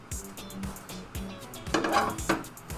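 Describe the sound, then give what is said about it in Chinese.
Dishes clatter as a plate is fetched to serve shrimp pasta: a few light knocks, then a louder burst of clinking, all fairly faint and without talk. “拿个盘子给你装。”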